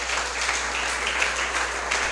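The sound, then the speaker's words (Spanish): A church audience claps for Jesus during a sermon, with a thick, continuous wash of applause at a steady level and a low hum underneath. “Dale un aplauso a Jesús por eso.”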